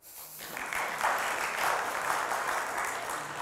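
Applause from a crowd, dense, steady clapping from many hands that starts abruptly and holds at an even level throughout.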